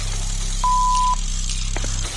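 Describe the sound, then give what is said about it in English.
A single steady voicemail tone sounds for about half a second at a mid-high pitch, over a constant low hum, marking the start of a message. “available to take your call. Please leave a message after the tone.”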